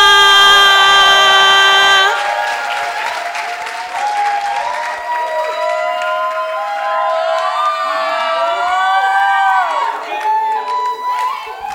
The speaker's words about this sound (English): All right, then please put your hands together as we welcome Sela.